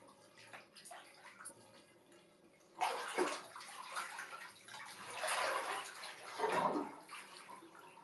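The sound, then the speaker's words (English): Water splashing as someone washes their face, quiet at first, then a few loud sloshing bursts of water with no talk. “I have to wash my face. I guess you guys can stick around for that, too. Oh, I just got so much of my hair wet.”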